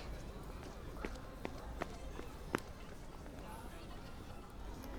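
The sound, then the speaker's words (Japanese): Quick running footsteps of someone hurrying up to a meeting spot, a handful of sharp steps standing out over a steady noisy background. “そんなに息切らして走ってこなくたっていいのに。”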